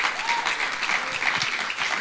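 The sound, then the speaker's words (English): A church audience applauds as someone is invited on stage. Many hands clap in a dense, steady patter that holds for the whole clip. “And will you please put your hands together as we are going to have Reese join us on stage.”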